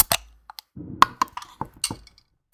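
A Saison beer from a summer mix pack is opened with a few sharp, separate clinks and clicks, a short low rustle, and quiet gaps between the sounds.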